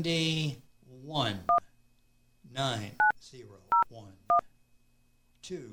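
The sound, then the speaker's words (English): Telephone keypad tones beep as a star code and number are dialed: four short, bright tones sound separately, with a person talking between them. “I'm just going to dial the number. Do the star 70, right?”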